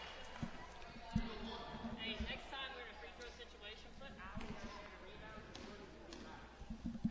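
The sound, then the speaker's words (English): A basketball is bounced a few times as a freshman player in a girls' high school game dribbles at the free-throw line. The bounces are faint thumps beneath steady talking. “Estes taking a couple dribbles, puts it up, second one good, didn't hit the rim either free throw”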